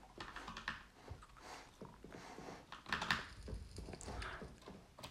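Quiet typing on a computer keyboard while writing a chat message, an irregular patter of many soft, quick key clicks with short pauses between bursts and no talk.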